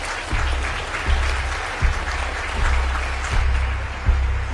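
Slow, weary applause from one person: a few single hand claps spaced roughly evenly, each a short sharp burst over a steady, noisy background.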